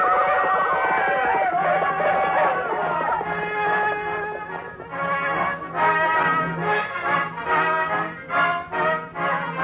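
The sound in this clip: Horses neigh as riders gallop fast in a modern Western setting. Loud, drawn-out whinnies waver in pitch, then give way to a run of rhythmic pulsing bursts.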